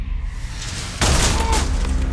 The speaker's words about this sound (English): Immediately, there's gunfire on every floor. Stun grenades explode. The noise is deafening,